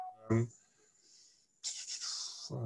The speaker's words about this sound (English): Let's see if I can actually draw it, which is not so easy.